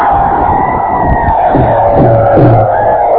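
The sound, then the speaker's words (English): A crowd in the American Legion Auditorium in Winter, South Dakota, roars a welcome: a loud, sustained, steady roar that holds without a break. “And here's a roar of welcome from the pheasant hunting paradise of the USA, Winter, South Dakota.”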